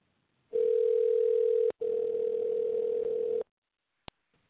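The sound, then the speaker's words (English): A telephone tone sounds while a call is placed to a cell phone: a steady mid-pitched tone holds for about three seconds, broken once by a very short gap, then goes silent before a brief click. “I am going to try calling her cell phone and see if we can get a hold of her”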